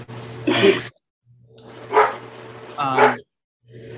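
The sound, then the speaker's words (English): A dog barks three times in short, sharp bursts spread across a few seconds, with brief pauses between them. “You got a dog. I can hear him. Yeah, that's the dog.”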